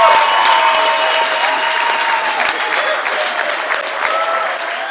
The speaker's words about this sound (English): Clap your hands for him. He's a good pastor.